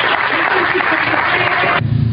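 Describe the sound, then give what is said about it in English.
Round of applause from people gathered at a picnic, loud, steady clapping that cuts off abruptly near the end. “I'm going to give them a round of applause.”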